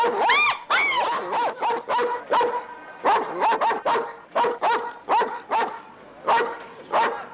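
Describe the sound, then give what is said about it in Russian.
A large German shepherd barks at a train carriage window, letting out many loud, quick barks in uneven bursts, some rising into higher whining yips between them. “В приоткрытом окне появляется голова крупной овчарки.”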